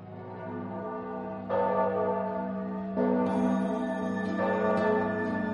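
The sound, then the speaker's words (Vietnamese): A Buddhist temple bell rings in several loud metallic strikes. Each bright tone sustains and overlaps the next, building a dense, shimmering wash of ringing. “Tiếng chuông chùa vang lên, cũng là lúc lũ quỷ kháo nhau về thưởng thức.”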